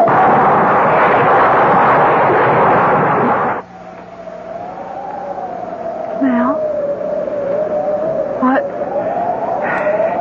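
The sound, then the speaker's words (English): A car swerves and crashes off a bridge. A dense, loud roar fills the first few seconds, then cuts off abruptly and leaves a quieter, steady wavering tone. “This time he swerved and he went off the bridge, just as I knew he would.”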